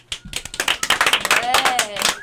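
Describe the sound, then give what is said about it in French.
People in a radio studio applaud themselves, a quick burst of many sharp claps mixed with voices talking and cheering. “on a un prototype en studio, ici même, aujourd'hui, on s'applaudit.”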